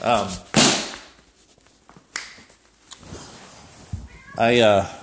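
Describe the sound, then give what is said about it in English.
A cat meows. A loud, drawn-out, wavering meow comes at the end, a shorter cry comes at the start, and a few sharp knocks fall in between. “sorry, I got distracted by a cat”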